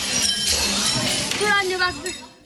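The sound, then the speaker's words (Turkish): Window glass shattering as it is smashed with a chair in a home in Kağıthane, Istanbul: a dense, continuous crash of breaking and clinking glass, with a voice audible over the noise. “Camları kırdı, eşyaları yola fırlattı. İstanbul Kağıthane'de annesi evde yalnız bıraktı diye öfkelenen genç sandalye ile camları kırıp mobilyaları balkondan attı.”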